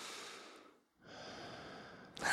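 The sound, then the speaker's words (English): Nasal breathing from a person whose congested nose has suddenly cleared after a week of blockage: soft, airy breaths, faint and alone, with a brief pause partway and a louder rushing burst at the end. “I can breathe through my nose right now. Listen.”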